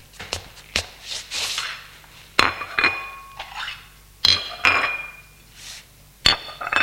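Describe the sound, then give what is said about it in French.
Plates and cutlery clink as each person takes a plate of ham and tomato. Many sharp, bright knocks and clinks come at irregular intervals, some ringing briefly. “Elle a 3 assiettes remplies d'une tranche de jambon et de quelques morceaux de tomate. Chacun prend son assiette.”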